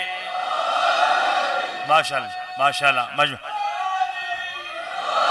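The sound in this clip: A crowd at a religious gathering shouts back in response to the Naara-e-Haidari chant: a few loud, drawn-out calls with falling pitch burst out mid-clip over a steady background murmur.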